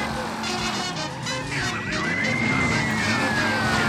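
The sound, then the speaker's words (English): A police car siren chasing the player in a driving video game: a wailing tone that climbs and then slowly glides down, over rumbling car noise. “I'm getting chased by a fucking cop, of course. It's a cop. I have to lose the cops.”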